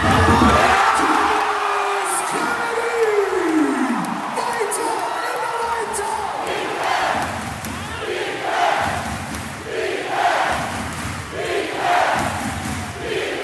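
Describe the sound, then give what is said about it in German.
A basketball arena crowd of 6,000 mostly costumed carnival fans roars as the Baskets take their first lead at 82-81. A loud sustained din of cheering and shouting swells into repeated rhythmic bursts of yelling. “Auf einmal stand die Halle Kopf, die 6000 überwiegend verkleideten Jecken sind völlig ausgeflippt. Lass uns einfach mal kurz reinhören in die Halle im Moment der ersten Führung der Baskets zum 82-81.”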